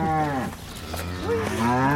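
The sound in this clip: Cows moo on a farm: a couple of low, drawn-out bellows with wavering pitch, loud and close, with no voices present.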